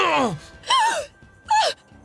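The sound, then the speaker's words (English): A woman gasps as a sword strikes a man in a fight: three short voiced cries, each sharp at onset and falling in pitch, with pauses between them. “Sieglinde gasped as Hunding's sword hit home, slashing a deep red ribbon across Siegmund's chest.”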